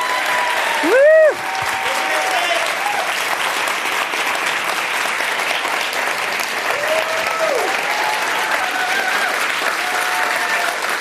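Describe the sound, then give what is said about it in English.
A standing ovation for Stacey Abrams, a candidate: sustained, dense applause from a large audience that holds steady throughout, with a loud shout early on and a few whoops rising above the clapping later. “The audience is giving Stacey a standing ovation.”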